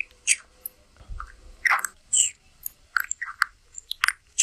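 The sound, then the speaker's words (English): A turtle chews fruit with many irregular wet, squishy bites and small crunchy clicks. The sounds are fairly faint and close together, with short quiet gaps between them. “of a turtle eating fruit, right? This fucking turtle is getting on that fucking ASMR wave. Listen to this shit.”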